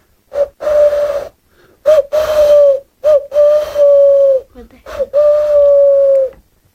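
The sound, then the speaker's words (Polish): A person imitates an owl's hoot with the voice: a few long, steady, whistle-like tones at a mid pitch, separated by short pauses, loud and without other talk. “Ja umiem sowę na przykład, patrz.”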